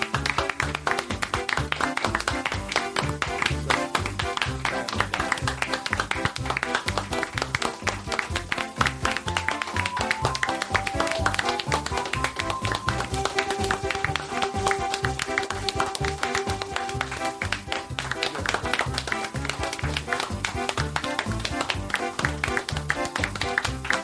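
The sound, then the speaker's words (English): Energetic audience clapping, a dense and steady stream of sharp hand claps that stays loud and even for the whole stretch without fading. “That clapping was energetic as shit.”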